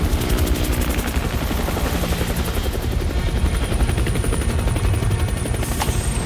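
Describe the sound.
A helicopter comes in to land, its rotor chopping in a loud, rapid, steady pulse over a continuous engine roar for the whole stretch, with no voices.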